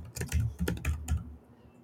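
Fingers type on a computer keyboard in a short burst of a few quick, clicky keystrokes, fairly faint, before falling quiet.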